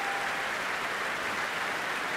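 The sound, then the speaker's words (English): A concert audience applauds the chorus masters of the CBSO chorus and Sydney choirs, a thick, unbroken wash of many hands clapping that stays loud and even throughout. “And that cheer for the chorus masters who have marshalled their forces this”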